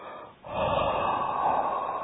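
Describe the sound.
A long exhale released after a held breath: a brief quiet gap, then a steady, fairly loud rush of air that holds evenly to the end, with no talking.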